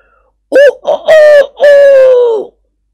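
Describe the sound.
A man imitates a rooster crowing with his voice: a few short, sputtering syllables lead into one long, drawn-out, strained note that trails off at the end. No other sound accompanies it.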